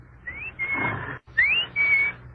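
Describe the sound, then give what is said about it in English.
A person whistles in imitation of a clock's mechanical bird, in two clear phrases. Each phrase is a quick upward-gliding note followed by a steady held tone. “My father had a clock that told the time with a bird jumping out. The bird whistled, like this.”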